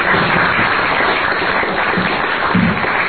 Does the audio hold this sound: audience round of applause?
yes